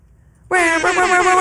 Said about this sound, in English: Necesitas un air horn.